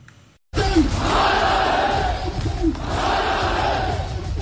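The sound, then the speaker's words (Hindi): Protesters chant slogans in the streets of Rawalakot: after a brief quiet moment, a loud crowd bursts into sustained shouting in unison, keeping up a strong, rough chorus of voices with a second surge of chanting partway through. “सुनिए इन नारों को, ये नारे किसी आम प्रदर्शन के नहीं हैं”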